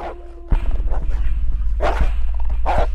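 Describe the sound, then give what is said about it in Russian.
A dog barks in a stairwell, letting out a few sharp, yelping barks at irregular gaps over a loud, constant low rumble. “В этот момент в подъезде раздался вой. Потом лай.”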